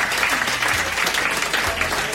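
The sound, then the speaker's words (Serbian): Applause for Serbia's national futsal team, steady, dense clapping at an even, loud level throughout. “Aplauze.”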